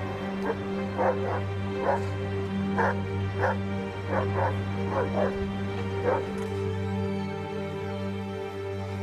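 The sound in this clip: A dog barks repeatedly in short, high yips, with whimpering between some of them. The barks come in many irregular bursts over a steady low hum.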